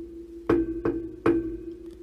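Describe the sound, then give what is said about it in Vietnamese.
Three sharp, evenly spaced knocks on an unpainted wooden door ring out, each a short hollow thud with a brief decay, over a faint steady low hum. “Ngoài cửa đột nhiên vọng đến tiếng gõ cửa. Cộc cộc cộc.”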